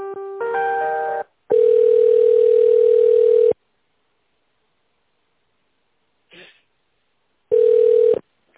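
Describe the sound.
Telephone ringing tone during the transfer of a business call: a brief harmonic beep, then steady mid-pitched tone bursts, one long and one shorter, separated by near silence with a faint blip.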